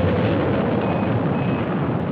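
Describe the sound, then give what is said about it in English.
A rocket's main engines start with a dense, steady, rumbling roar that stays loud and even from start to finish. “T-minus 10, 9, 8, 7, 6, 5, 4. We've gone for main engine start. We have main engine start.”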